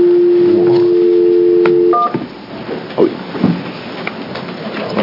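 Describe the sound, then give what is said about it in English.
Telephone keypad dialing tones: one long, steady dual-pitch tone is followed by a brief higher beep. Then come quiet line noise and a few faint clicks and bumps. “Oh, I see what I did. I dialed the wrong number.”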